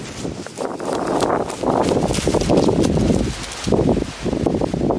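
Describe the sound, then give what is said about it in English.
Wind rushes through the feathers of a California condor taking off, a gusty, breathy whooshing that swells and fades in several uneven surges, with no voices. “That's the sound of wind rushing through the feathers of a California condor taking flight.”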